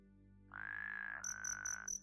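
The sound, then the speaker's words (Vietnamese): Frogs and toads croak at night: a sustained, steady mid-pitched tonal call is joined by a higher, rapidly pulsed chirping over a low background hum. “tiếng ếch nhái ênh ương cứ kêu lên não nề ruột gan”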